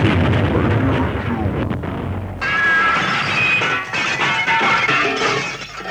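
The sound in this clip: A gunfire sound effect aimed at a printed t-shirt produces a loud, dense, crashing barrage. Harsh shattering noise shifts abruptly partway through and continues as a rough, noisy clatter.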